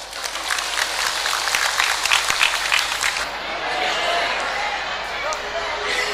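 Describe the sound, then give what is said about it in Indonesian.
Audience applauding after a speaker asks for it: steady, dense clapping with crowd noise that holds at a fairly even loudness throughout, with some brief sharper claps early on. “Boleh tepuk tangan.”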